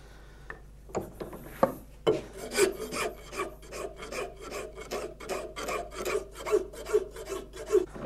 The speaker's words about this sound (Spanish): No se debe dar nunca contra fuera porque esbroncaría el asta. Siempre se debe limar contra dentro, ¿entiendes?